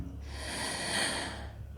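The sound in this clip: A single deep breath drawn in to focus during a meditation attempt: a long, airy rush of breath that swells toward the middle and then eases, heard alone.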